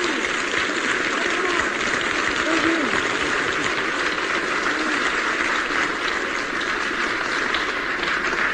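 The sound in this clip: Crowd applause runs on as a dense, even wash of clapping for the whole stretch, holding a steady loudness without breaks.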